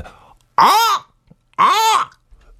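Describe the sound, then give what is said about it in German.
A human voice imitates a hawk's call with two loud, drawn-out screeching cries separated by a short pause. Each cry arches up and then falls in pitch. “Ein Habicht, der Vogel Habicht. Okay, der fliegt hoch in der Luft. Ah ja, wie macht er denn? Ich glaube, der macht,”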